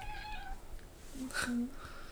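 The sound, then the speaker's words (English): A house cat meows, giving a few short, nasal calls in quick succession, moderately loud over a quiet background. “She decided to chime in. She wants to be part of the podcast. That's their cat, if y'all didn't know this.”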